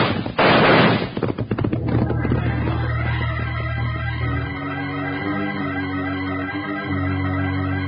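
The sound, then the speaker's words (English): A signal gunshot fired to call everyone in goes off as a loud, sharp burst at the very start, its ragged crackle trailing away over the next second under a sustained, steady tonal background. “I'll fire the signal for everyone to close in.”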